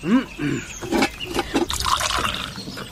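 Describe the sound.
Tea being poured into a cup, a short liquid trickle and splash while people talk over it.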